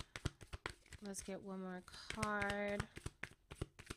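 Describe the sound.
Affirmation cards are shuffled and drawn from a deck during a card reading, giving many brisk flicking and riffling taps alongside a person's voice.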